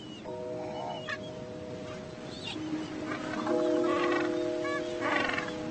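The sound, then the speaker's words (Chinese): A gentoo penguin colony of more than 300 birds, nesting and raising chicks on a plain above a beach, calls in scattered honking, braying bursts over a steady humming bed that grows busier toward the end. “一个庞大的巴布亚企鹅群栖息在海滩上方的平原，”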